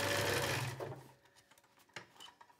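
Sewing machine stitching a second seam beside the first on coated trousers; a steady whirring run lasts under a second, then stops, leaving a few faint clicks and taps.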